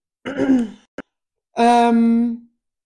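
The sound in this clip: A groan: a short breathy vocal sound and a tiny click, then a longer drawn-out moan held at a fairly steady low pitch before fading, with no talk around it.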